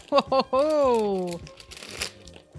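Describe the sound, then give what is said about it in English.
A big bag of Burger Rings chips crinkled for ASMR: crisp plastic rustles and crackles follow a stretch of talking and stay moderately loud. “All right, we got another big bag of chips. All right, I'll do some more ASMR here.”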